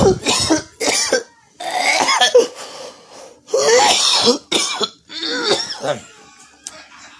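A person coughs hard after a heavy hit from a silicone pipe, letting out a long run of harsh, ragged bursts broken by short pauses and throat-clearing, loud and uneven throughout.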